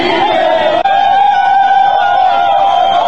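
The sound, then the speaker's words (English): Huge, wall-to-wall crowd of mostly men yelling, hollering and screaming. Their voices merge into a loud, continuous roar with sustained shouted tones, broken only by a momentary dropout near the first second. “and you can just see the size of this crowd. I mean, this is just wall-to-wall people, folks, yelling and hollering and screaming.”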